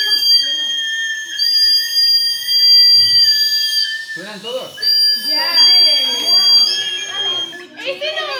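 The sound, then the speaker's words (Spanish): Several children blow 3D-printed whistles together, producing layered, shrill, sustained high tones that overlap loudly. Partway through, children's voices and chatter join the piercing whistling. “Mira, concierto de silbato. Ahora os vais a despertar.”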